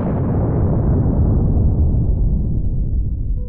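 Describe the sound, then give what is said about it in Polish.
A bomb explodes during an air raid on a town by low-flying attack aircraft, a loud, deep, roaring boom that rumbles on continuously, its hissing upper edge gradually dulling as the blast rolls away. “Zaczął się kolejny nalot na miasto. Prawie dotykając skrzydłami dachów, szturmowce zrzucały bombę na bezbronnych ludzi.”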